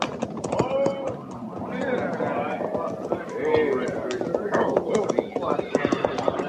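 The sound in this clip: Hoofbeats of cavalry patrol horses riding in, a busy, continuous clip-clop of many hooves with men talking over it.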